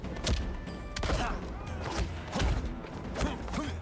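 Heavy gunshots in an Xbox video game: a few booming, thudding shots at irregular spacing, each a sharp burst that fades quickly.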